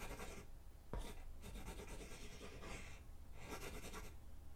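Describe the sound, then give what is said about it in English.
Someone writing down an address, heard as several faint bursts of scratchy, rasping strokes separated by short pauses. “Let me just write down the address for you.”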